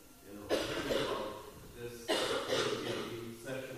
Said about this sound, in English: she was coughing when you were speaking, so I didn't hear it